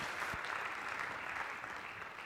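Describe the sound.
Warm applause from an audience welcoming a speaker in Hull: dense, steady clapping that holds at an even level throughout and tapers only slightly at the end.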